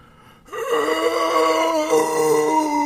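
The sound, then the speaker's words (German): Voice imitating zombie noises, a sudden drawn-out groaning moan that starts after a brief quiet moment and holds, wavering, to the end. “mach mal Zombie-Geräusche”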